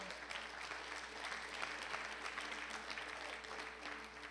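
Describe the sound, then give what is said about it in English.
Audience clapping at a religious gathering after a testimony of faith, a faint but continuous, dense patter of many hands that stays steady from start to finish. “you can give God a hand and clap on that.”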